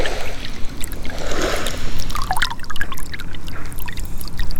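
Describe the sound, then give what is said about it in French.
Water trickles and flows slowly into a salt marsh pan as it is re-flooded, a steady low hiss of gentle pouring with scattered small splashes and gurgles throughout. “Donc c'est vraiment, l'eau circule tout doucement. Remise en eau d'un œillet.”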